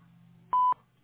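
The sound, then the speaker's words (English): A voicemail recording tone sounds as one short, clear mid-pitched beep, lasting about a fifth of a second, over a faint low hum with silence around it. “At the tone, please record your message.”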